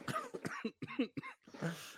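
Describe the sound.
Harsh coughing comes in a run of several rough, voiced bursts with short gaps between them, fairly close and with no talking.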